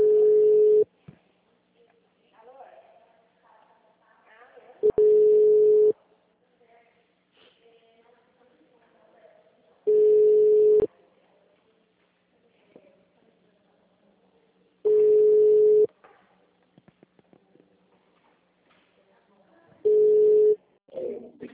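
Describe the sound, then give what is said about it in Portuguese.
An outgoing telephone call rings repeatedly as steady mid-pitched ringback tones: five even beeps of about a second each, spaced roughly five seconds apart, with quiet voices murmuring faintly in the gaps. “Tô ligando aqui.”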